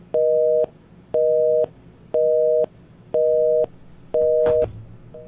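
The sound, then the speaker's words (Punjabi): A telephone busy signal follows a disconnected line, with five loud, steady beeps at a regular one-second rhythm, each about half a second long, and the start of a sixth. A faint click falls during the fifth beep. “Hello okay, so line disconnect ਹੋ ਗਈ। ਭੈਣ ਜੀ ਜਾਂ ਭਾਈ ਸਾਹਿਬ ਜਿਨ੍ਹਾਂ ਨੇ phone ਕੀਤਾ, ਮੈਨੂੰ please call back ਕਰ ਲਿਓ, ਕਿਉਂਕਿ ਤੁਹਾਡੀ ਫੋਨ ਦੀ ਲਾਈਨ ਬਾਈ ਮਿਸਟੇਕ ਤੁਹਾਡੀ ਡਿਸਕਨੈਕਟ ਹੋ ਗਈ।”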